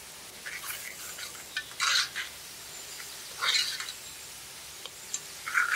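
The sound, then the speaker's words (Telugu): Stirring of frying onion with ginger-garlic paste and turmeric in a pan: a few louder scraping strokes rise over a steady low sizzle, with short gaps between them. “ఉల్లిగడ్డ కొంచెం వేగాక అల్లం వెల్లుల్లి paste చెంచానారా, 1/2 చెంచా పసుపు కూడా వేసుకుని 2-3 నిమిషాలు బాగా కలుపుకుందాం.”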